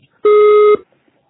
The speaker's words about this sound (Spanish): Es el servicio de edición de voz, pase después del tono. Si necesitas volver a grabar, marca el signo de número y espera instrucciones.